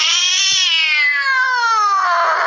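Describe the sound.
A cat being poked lets out one long, loud yowl that climbs slightly at first and then slides slowly downward in pitch, sustained without a break for over two seconds.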